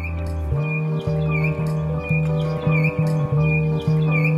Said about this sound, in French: Donc moi je prends le son de l'oiseau.